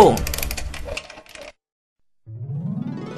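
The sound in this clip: Rapid ratcheting clicks of a clockwork spring being wound, a dense clattering burst lasting about a second and a half, then a short silence before a rising tonal sound swells in.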